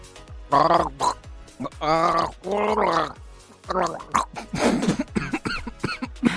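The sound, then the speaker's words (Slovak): A series of harsh, rasping coughs, loud and throaty, comes in several bursts one after another, almost like gargling. “A nekašli pri tom, dobre?”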